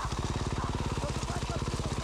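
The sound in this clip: A motorcycle engine keeps running after a racing crash, the bike lying in thorn bushes on top of its fallen rider. It makes a steady, rhythmic low chugging at an even idle pulse.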